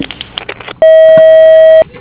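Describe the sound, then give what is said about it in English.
A voicemail answering machine gives one long, steady, loud electronic beep lasting about a second, just after the end of a recorded greeting voice. “Unfortunately, I can't come to the phone right now. Please leave a message after the tone.”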